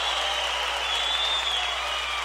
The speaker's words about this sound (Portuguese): Cadê o aplauso